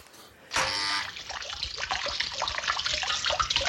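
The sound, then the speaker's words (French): A fish-shaped fountain outside a house in a small village sprays a jet of water. A quiet lead-in gives way to a sudden burst of rushing, hissing water, which keeps flowing steadily with a slightly fluctuating level. “Madame Harpel est si fière avec sa fontaine poisson qui lance son jet d'eau.”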